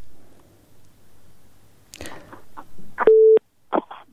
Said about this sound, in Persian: بله تماسی شنونده ما قطع شد و میریم به تماس دیگه شنونده ما.